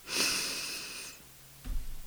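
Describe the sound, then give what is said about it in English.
A single deep breath drawn in through the nose during a calm guided meditation, heard as a soft, steady airy hiss for about a second, then a brief low rustle. “you're going to take a few deep breaths in”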